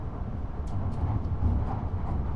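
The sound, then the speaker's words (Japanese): Steady, loud low rumble of a Tohoku Shinkansen Yamabiko Super Express running, with broad even noise and faint higher hiss that holds without a break throughout. “welcome on board the 東北新幹線。 This is a Yamabiko Super Express bound for Tokyo”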